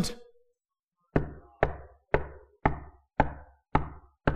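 Knocking on a door: seven firm, evenly spaced raps, each a sharp thud with a short decay, after a brief fading sound at the start.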